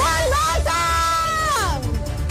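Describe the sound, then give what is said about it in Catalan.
A woman lets out a long, loud shout, a sustained high-pitched cry that wavers and then slides downward near the end, heard alone without other voices. “No podia faltar un crit”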